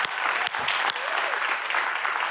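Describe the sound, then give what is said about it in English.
A church audience gives a big round of applause during a service, with loud, continuous clapping from many hands that stays full and even throughout. “Come on, everybody. Let's give them a big, warm round of applause.”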